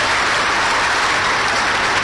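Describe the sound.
Dense, steady applause from an audience at a Bolivian political speech saluting the democratic armed forces, loud and continuous throughout with no break and no voices standing out.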